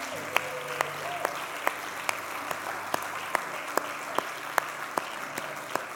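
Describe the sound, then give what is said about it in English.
Audience applause for a welcome team: a steady crowd wash of clapping with a regular rhythmic beat of sharper claps running evenly through it from start to finish. “And could we give a hand for the welcome team?”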